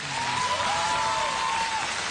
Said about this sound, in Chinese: 来，我们以热烈的掌声欢迎领导光临指南。